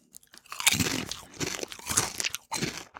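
Crunching and chewing while tasting dill-flavoured crisps, a Polish-style snack: many crisp, brittle crunches come in uneven bursts between brief pauses, with no voices.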